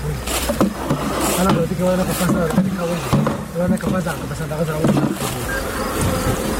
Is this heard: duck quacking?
no